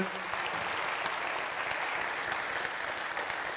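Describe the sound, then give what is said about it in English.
Applause from a church audience at Oak Mountain Presbyterian welcoming a guest speaker, a steady, even wash of many hands clapping with no pauses and no talk over it. “Let's give Sandy a hand as he comes in.”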